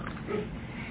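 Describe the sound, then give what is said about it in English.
A man clears his throat once, a short, low, gruff rasp lasting about a second. “I have this habit of clearing my throat, so I'm sorry.”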